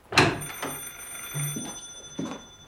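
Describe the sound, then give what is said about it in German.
A telephone standing in a hallway rings in a few short, bright repeated bursts, moderately loud and without talk. “Entschuldigen Sie das Telefon.”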